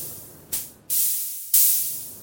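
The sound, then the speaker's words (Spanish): Freshly placed meat sizzles on a charcoal grill, hissing in three bursts that each start abruptly and fade slowly, the last one the brightest and loudest. “La carne recién puesta chillaba suavemente.”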